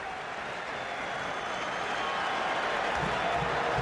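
Football supporters roar at a USA match in Chicago. The dense, steady crowd noise swells slightly toward the end.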